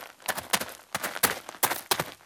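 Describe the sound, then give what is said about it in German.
Footsteps of people walking across a cemetery, a handful of crisp, scuffing steps in an uneven rhythm, fairly quiet and with no talk over them. “hört ihr auch, wie viele Personen da über den Friedhof laufen? Ist es eine Person? Sind es zwei oder drei oder noch mehr? Und zählt mal, wie viele Schritte insgesamt gemacht werden.”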